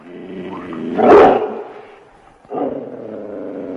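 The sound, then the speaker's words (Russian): A dog gives two deep, gruff, roaring barks, the first louder and more drawn out, the second following after a short pause; no talk. “Ох, кто этот великолепный зверь? А это наш пес Цезарь.”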